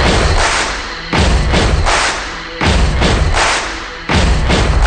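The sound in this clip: Heavy stomps and hand claps open a rock song, repeating a steady pattern of two low, booming thuds followed by a sharp clap several times, loud and without vocals.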